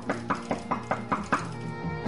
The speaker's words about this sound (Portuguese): Um homem misterioso bate à porta do advogado e poeta Cláudio Manuel da Costa.